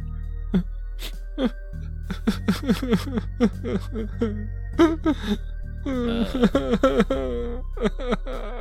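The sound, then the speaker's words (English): A voice imitates someone quietly sobbing: a long run of short, breathy, whimpering catches with wavering pitch. It grows fuller and more insistent toward the end. “you hear someone or something quietly sobbing.”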